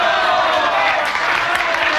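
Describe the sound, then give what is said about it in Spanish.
A crowd applauds protesters who hold their ground as police vehicles brake in front of them, producing a brief, dense patter of clapping mixed with general crowd noise at a steady, fairly loud level. “El público aplaude a los manifestantes por su valor y serenidad.”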